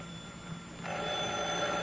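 A telephone rings in a police department office. The ring is faint and continuous, with steady bell-like tones, and it grows louder partway through.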